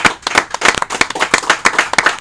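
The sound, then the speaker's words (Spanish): Applause from an audience, made of many sharp, distinct hand claps in a quick, fairly even rhythm, loud and clear with little else beneath it. “un aplauso muy querido por parte de nosotros para ustedes. No, es un aplauso el que... El aplauso yo creo que es mutuo también”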